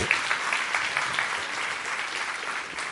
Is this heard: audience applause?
yes